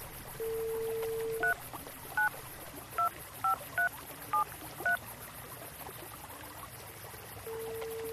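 Telephone keypad dialing tones: a steady dial tone breaks off into seven short dual-tone beeps at uneven intervals, then the steady tone resumes, with a faint hiss underneath.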